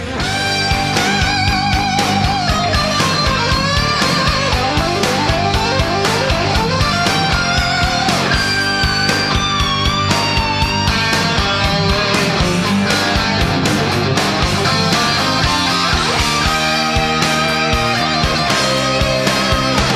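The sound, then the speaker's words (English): Electric guitar solo in a hard rock song by both guitarists, with sustained, bending lead lines soaring over driving drums, bass and rhythm guitar, loud and continuous throughout with no voices. “What the song does have, though, is a great guitar solo that sounds like this.”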